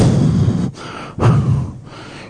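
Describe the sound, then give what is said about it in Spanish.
A human voice imitates an animal's snort with two long, forceful breathy blasts of air. Each blast is loud and noisy, and a short pause separates them. “Nacor significa bufido. Es como el bramido, es la forma, si vale el término, como se manifiestan los animales.”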